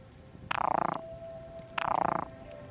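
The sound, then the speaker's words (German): A frog gives two rattling, pulsed croaks, each about half a second long, separated by a short pause. A faint steady tone lingers between them over low background noise. “Blau gefärbt, dann der Frosch.”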